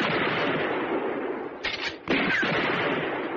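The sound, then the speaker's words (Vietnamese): Gunfire in a night battle against enemy troops, a dense, loud, continuous crackle of shots with a brief dip midway before it resumes at full strength. “Tự nhiên về phía quân địch, tiếng súng thưa dần. Cả tiếng súng về nẻo cánh quân đằng kia nữa.”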